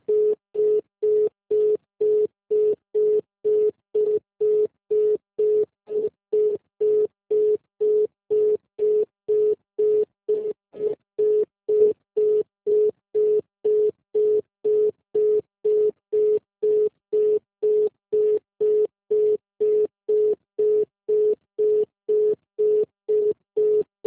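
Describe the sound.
Telephone line tone after an automated Santander call hangs up: many short, even beeps at a constant mid pitch, switching on and off in a brisk, steady rhythm with no talk.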